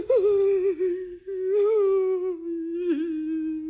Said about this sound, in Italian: Figlio, perché piangi? Perché questi lamenti disperati?